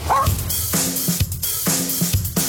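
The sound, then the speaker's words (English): A young puppy in training barks in a quick, uneven run of several sharp, high yaps, loud and alone. “Sorry about the barking. We're still training our new pup.”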